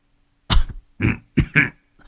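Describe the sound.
An elderly, ailing man huddled up and coughing hard, several harsh, throaty coughs in quick succession with short gaps, then a faint final one.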